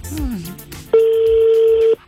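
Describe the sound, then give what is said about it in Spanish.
A single steady telephone ringback tone while a call is placed, lasting about a second and following a short stretch of talk. “estamos llamando a otra. Vamos a ver si nos contesta.”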